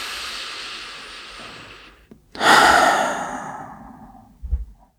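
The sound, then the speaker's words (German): Deep breaths in and out: a long, airy, hissing exhale tapers off, then after a brief pause comes a louder, sigh-like breath that slowly fades, followed by a short puff of air at the end. “Als erstes nehmen wir mal 2 tiefe Atemzüge gemeinsam in diesem Moment.”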